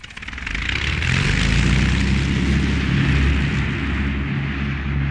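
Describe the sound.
An airplane taking off, its engines rising from a quieter start into a steady, loud, low roar with a broad rushing hiss above, with no voices.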